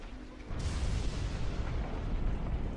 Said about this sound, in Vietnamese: cả không gian đã hoàn toàn không chịu nổi trực tiếp nổ tung. Tiếng nổ vang trời đình tài nhức óc kia như gõ thẳng vào trong đầu